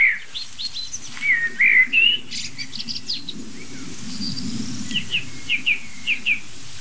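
Chaffinch alarm calls ring out as short, sharp, high 'pink' notes. A few come in a quick cluster, then a pause, then another run of several evenly spaced calls, all over a faint steady hiss.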